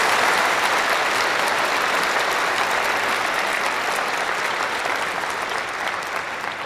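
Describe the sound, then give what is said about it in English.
Audience applause welcoming a priest, Father Christopher, as a guest: a dense, even wash of clapping that holds steady for several seconds and eases slightly toward the end. “So can we give him a hand and welcome Father Christopher Smith?”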